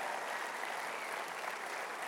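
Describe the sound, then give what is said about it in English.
A church audience at Beltway Park Church applauds a guest speaker during a morning service, producing a soft, dense, even patter of many hands clapping without pause. “I want you to put your hands together and I want you guys to welcome Leif Hetland to Beltway Park Church this morning.”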